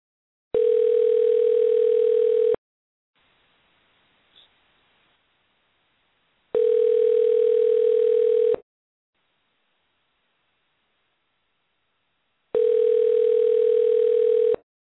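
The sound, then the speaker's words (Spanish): An unanswered telephone call rings back with three long tones of one steady pitch, each about two seconds, separated by near-silent pauses of about four seconds. “vamos a intentarle una vez más a nuestro amigo Kelly Pavlik, a ver si ya llegó a su destino, para ver si nos puede contestar.”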